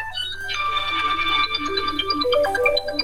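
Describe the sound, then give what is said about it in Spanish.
A mobile phone ringtone plays a bright, busy electronic melody of stepping tones, steady in level throughout, with no voices over it. “Es que cuando te llegan mensajes o te entran llamadas, claro, se oyen. Si estuviera en silencio, pues no los haría.”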